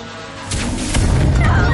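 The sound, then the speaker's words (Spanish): Magic wands fired together at one target in the 2016 fantasy film Fantastic Beasts and Where to Find Them. A sudden, loud crackling surge with a heavy rumbling low end breaks in partway through and keeps building to the end. “Todos disparan sus varitas contra él.”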